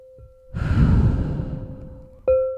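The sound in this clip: One long, deep, airy breath rushes for about two seconds over a steady, soft sustained tone, then a clear tone rings out and slowly fades.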